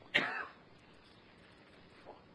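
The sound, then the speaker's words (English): A single sharp, raspy cough bursts out near the start, then fades into near silence with only a faint trailing sound later. “You do like to get attention, don't you? Now, let's have a real good cough to get real good attention.”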